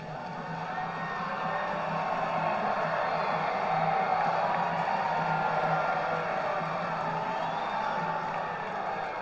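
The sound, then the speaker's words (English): A baseball stadium crowd during a full-count at-bat gives off a steady, broad roar of cheering. It swells over the first couple of seconds, then holds at a moderate, even level. “The crowd makes itself known.”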